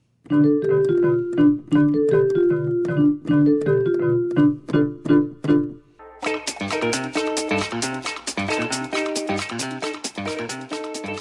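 Instrumental music opens with a bouncy, repeating figure of short staccato notes for about six seconds, then a fuller, denser band section comes in and carries on loud and busy to the end.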